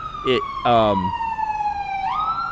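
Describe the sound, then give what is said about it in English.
An ambulance siren wails on a New York street in one loud, steady tone that sags slowly, then climbs again near the end, while a voice briefly cuts in over it. “it's an ambulance”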